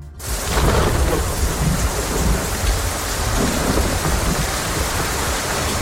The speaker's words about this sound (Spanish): Está lloviendo con fuerza, con persistencia. Este es el sonido de la lluvia.